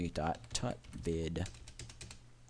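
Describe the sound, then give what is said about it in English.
Typing a URL on a computer keyboard: a quick clatter of key presses runs steadily beneath a voice that talks throughout. “You need to type the URL. You need to put quotes.”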